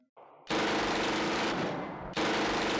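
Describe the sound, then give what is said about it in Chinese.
A Japanese Type 11 light machine gun sweeps a burst across a small shop's doorway. A loud, dense rattle starts abruptly after a quieter opening, eases slightly partway through, then surges again until the end. “小鬼子的歪把子机枪对小店是一阵狂扫，小店大门的周围瞬间就被子弹包围”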